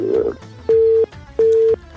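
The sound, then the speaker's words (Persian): A telephone tone sounds after a caller's line drops during a phone-in. Two steady mid-pitched beeps of equal length are separated by a short gap, over faint background noise. “متاسفانه قد شد باز هم تماس قد شد”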